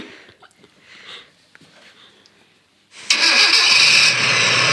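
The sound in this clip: A car engine is started after a few seconds of quiet with faint scattered sounds. The engine catches abruptly and settles into a loud, steady running roar that continues to the end.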